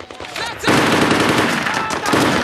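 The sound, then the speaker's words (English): Marines' weapons fire rapid automatic bursts. A few lighter shots lead into a loud, dense, continuous volley. “The Marines return fire.”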